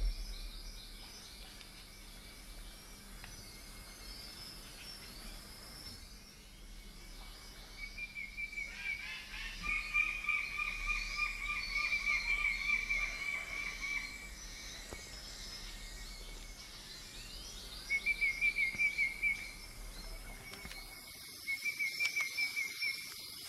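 Birds sing in a forest, with bright high-pitched trills and chirps coming in several bursts over a steady, insect-like background hum. The calls grow louder in the middle and again near the end, with no voices.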